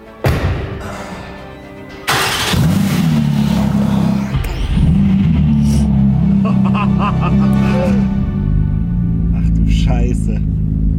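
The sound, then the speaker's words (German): A previously crashed, now rebuilt Porsche GT3 sports car on a test drive. A thump is followed about two seconds in by a loud, sustained engine rumble with slight revving that holds steady, while people talk over it. “Und deswegen setzen wir uns jetzt das aller, allererste Mal in diese Epic Karre Moment. und fahren eine Runde. Probefahrt.”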